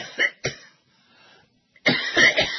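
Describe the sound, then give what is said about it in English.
Coughing from a person with a cough that has lasted two days: two sharp coughs close together, a quiet gap, then a longer rough burst of several harsh coughs in a row. “This has been going on for 2 days. Coughing.”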